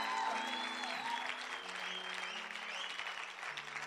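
Steady, dense applause from a church audience welcoming its pastors, unbroken and even in loudness for the whole few seconds with no single claps standing out.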